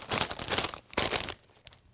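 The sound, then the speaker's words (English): Spicy ranch-flavoured chips crunch loudly in two dense crackling bites, each a burst of brittle snapping. Softer crinkly crunches of chewing follow. “Sorry for crunching into your ears, by the way. Edit this out. Edit all the crunching out.”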